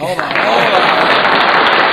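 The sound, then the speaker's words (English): Applause, a thick, even patter of many hands, loud and sustained after a voice is briefly heard at the very start. “Applaud that real quick.”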